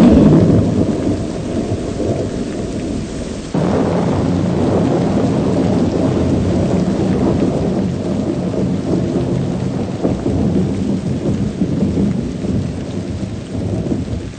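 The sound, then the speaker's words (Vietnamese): Rain at night pattering on a thatched leaf roof makes a dense, continuous hiss and patter, with a low rumble like thunder underneath. The level steps up slightly a few seconds in and then stays steady and loud. “ngoài trời mưa rơi tí tách trên mái lá”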